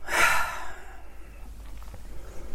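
A deep breath out during a guided relaxation exercise: one loud, airy exhale at the start that fades away within about a second, leaving only quiet background hiss.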